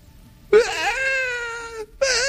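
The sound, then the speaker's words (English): A voice imitates a young child's tantrum with a long, sustained high wail that wavers and trails off, followed by the start of a second wail. “He opens it, he sets it aside, and he throws a tantrum.”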